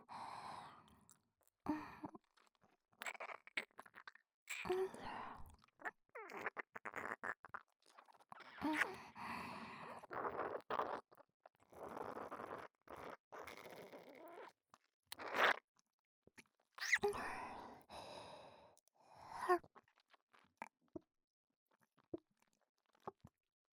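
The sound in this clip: Milk being drunk in small sips and swallows, heard as many brief wet mouth sounds in irregular bursts with breathy sighs between them, soft and close, with no talk.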